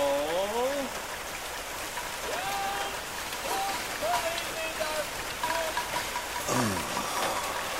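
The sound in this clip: Steady rain falling, a dense even hiss that holds for the whole clip, with scattered high whistling chirps rising and falling above it.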